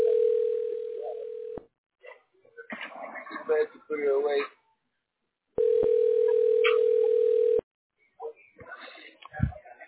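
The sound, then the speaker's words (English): A steady telephone tone plays twice. Each is a loud, flat, unbroken hum lasting a couple of seconds, and talking voices fill the gaps between and after the tones. “What did you say, the phone again?”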